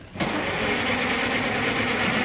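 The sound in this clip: Car engine cranking but failing to start: after a brief quiet moment a steady, even mechanical whirr sets in and holds at a constant level without catching into a running idle.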